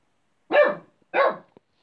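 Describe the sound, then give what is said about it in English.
A dog barks twice, two sharp, evenly spaced barks with silence between them, followed by a faint click. “And the dog's barking in the background,”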